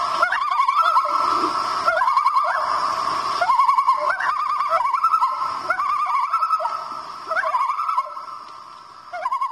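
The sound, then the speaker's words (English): Common loon giving its territorial warning tremolo call, a rapid, wavering, laugh-like warble repeated in several long phrases, loud and steady throughout with no talk. “Loons are also known for their territorial or warning tremolo call if you get too close to their chicks. Another name for it is the crazy laugh.”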